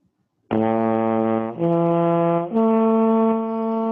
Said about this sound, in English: I'll play three different partials here with a lip slur.